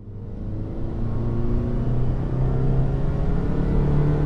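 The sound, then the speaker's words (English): A car driving down a road at night gives a steady low rumble of engine and road noise, holding an even level throughout without talk. “It's late at night, and you're driving down a dark and desolate road.”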